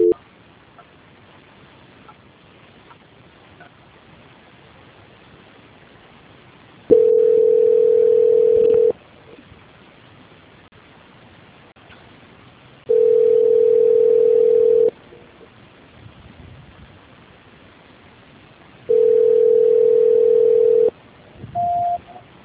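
Telephone line tones sound during a call transfer: three steady, evenly spaced tones of about two seconds each rise over faint line hiss, then a short, higher beep follows.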